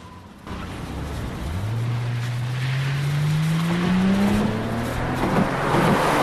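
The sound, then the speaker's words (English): A car engine runs as the car drives back onto the road, a loud steady rumble under a whine that climbs slowly in pitch as it accelerates. No voices are heard. “David starts the car up again and drives back onto the road to continue their journey.”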